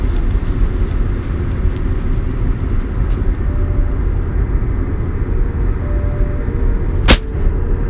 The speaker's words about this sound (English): We are driving in the car again, as you can plainly hear on the return trip from Kansas.